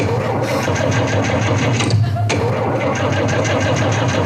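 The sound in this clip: A car engine being started, heard as a steady, rapid mechanical rattle and whir running through the whole clip without catching into a clear idle.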